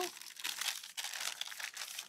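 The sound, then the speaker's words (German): Baking paper crinkles as it is peeled off a baked sponge cake: a continuous crisp, papery rustling with short dips between pulls, alone without voices. “Und wir haben also dann hinterher ein Ergebnis, wo wir das Backpapier schön abziehen können.”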